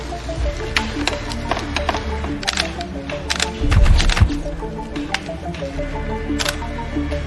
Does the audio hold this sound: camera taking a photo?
yes